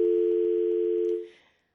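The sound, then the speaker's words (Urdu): Dial tone after a caller's line dropped during a radio call-in show. A single steady, even tone holds for a little over a second, then fades quickly to silence. “اچھا ان کی line drop ہو گئی، یہ نئے collars ہیں لہٰذا ان کی لائنیں ہمیشہ نہیں ملتی”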